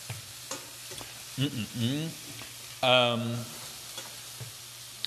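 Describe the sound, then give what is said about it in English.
Mushrooms being stirred in a hot pan: a few faint clicks and short tonal scraping squeaks stand out over a low, steady background hiss. No voices are heard. “Stirring some mushrooms as well.”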